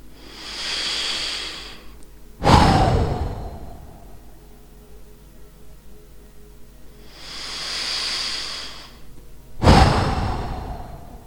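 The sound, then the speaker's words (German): Forceful breathing out during a guided relaxation breathing exercise: two deep breaths, each a soft hissing inhale followed by a sudden loud whooshing exhale, with no talk. “beim Ausatmen tief und kräftig auszuatmen, so dass es ein Geräusch geben darf, während die Luft schnell und kräftig hinausgepustet wird.”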